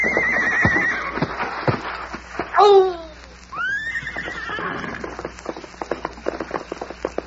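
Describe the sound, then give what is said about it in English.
A Pony Express rider's horse lets out a loud, descending neigh midway through while galloping. Hooves pound in a rapid, uneven patter throughout. “Get up, Molly. Cover the ground, boy. The Pony Express has got to get through.”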